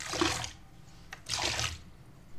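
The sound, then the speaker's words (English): Bath water with ginger bath tea bags in it is swished to froth up bubbles, giving two soft, fairly faint splashing swooshes separated by a short pause. “Just trying to froth up the bubbles.”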